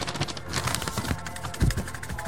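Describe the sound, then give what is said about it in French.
Rustling and rattling of a paper envelope being shaken with a small plastic object inside, a continuous crinkly scratching with one duller thump near the end. “Alors, attends, il me reste encore une enveloppe. Alors, je regarde. Ah ben, regarde, il y a quelque chose dedans. Ah ouais, effectivement, il y a quelque chose. On va secouer pour voir ce que ça peut être, déjà.”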